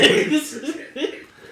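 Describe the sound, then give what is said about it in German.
A woman coughing: a few short, rough, voiced bursts in quick succession, fairly loud at first and fading toward the end. “Und jetzt hustet sie.”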